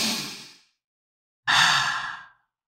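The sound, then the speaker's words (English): A deep breath in and out: two long, airy breaths separated by a short pause, the second a louder, fuller exhale that tapers away. “Take a breath with me.”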